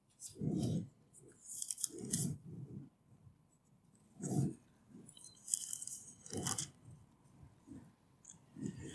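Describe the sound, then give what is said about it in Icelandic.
Pages of a Bible are turned while someone looks for the Book of Genesis. Soft papery rustles and flicks come at irregular intervals, faint and crisp, with quiet gaps between them. “Flettir nokkrum blaðsjöðum.”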